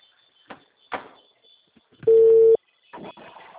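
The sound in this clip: Ringback tone on an outgoing telephone call: one loud, steady, mid-pitched beep lasting about half a second, amid faint clicks and rustling.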